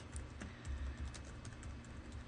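Keystrokes on a computer keyboard as text is typed into an application's text box. Faint, steady clicking continues several times a second throughout.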